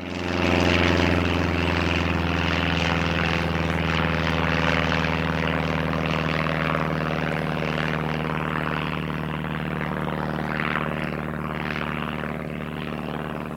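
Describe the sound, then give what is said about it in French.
A propeller airplane taking off, its engine roaring loudly and continuously with a steady droning tone and no pause throughout. “Attachez vos ceintures, décollage immédiat.”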